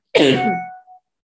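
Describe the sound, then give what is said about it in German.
A person coughs once, a loud rasping burst with a short, fainter catch right after it. The cough is heard alone, with no talk. “So, jetzt musste ich mal kurz husten.”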